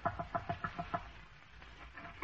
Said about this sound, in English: Are these your chickens? Yes, they are. Well, do you mind if I ask you a favor? Your chickens are awful fond of the seeds I'm trying to plant.